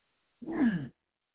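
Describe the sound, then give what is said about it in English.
A single throat clearing, one short rough burst of about half a second, heard alone with no talk around it. “let me see if I can't get my throat cleared a little better.”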